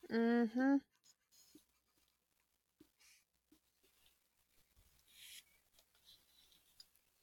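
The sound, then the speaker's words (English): Pen or pencil scratching across paper as something is written down by hand: faint, scattered light scrapes and taps over several seconds, after a short burst of voice at the start. “Just writing this down.”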